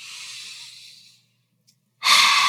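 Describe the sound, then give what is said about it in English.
Slow, deep breathing from a breathing exercise: a long, airy breath fades out, a near-silent pause follows, then another strong, hissing breath begins. “Breathe in and breathe out. Guys, seriously, me doing that breathing exercise, I feel light.”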